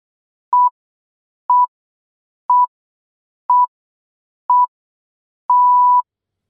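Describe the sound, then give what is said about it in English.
Edited electronic beep pips: six pure, mid-pitched tones, five short ones spaced exactly a second apart and a final one held about half a second, each loud and clean over complete silence. “press play after these craftily edited pips. Beeps.”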